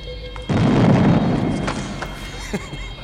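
An explosion effect goes off in an audio drama starship battle scene with collapsing shields. It starts as a sudden, loud boom, and a heavy low rumble then fades slowly over the next couple of seconds.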